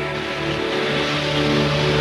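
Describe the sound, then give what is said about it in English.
A car engine drones steadily as the car leaves a driveway, a low humming tone with even harmonics that grows slightly louder toward the end. “Bert gets into the car and drives away”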